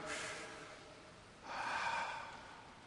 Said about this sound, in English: So at this point, I invite everyone to just take a deep breath.